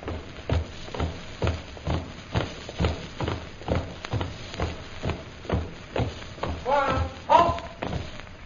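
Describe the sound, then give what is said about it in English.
A squad of soldiers marching forward, their boots landing in a steady rhythmic tramp of even, heavy thuds at about two per second. A short voice breaks in near the end. “Squad, forward, march!”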